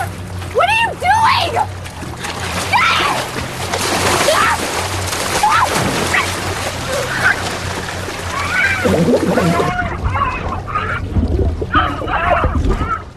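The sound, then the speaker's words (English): Water sloshes and splashes as a man overpowers a woman and forces her head under the water, a churning, uneven struggle mixed with strained vocal sounds. “she desperately tries to tackle Shaw, he overpowers her and forces her head under the water”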